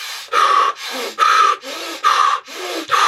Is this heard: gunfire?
no

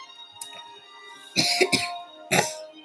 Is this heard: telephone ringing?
no

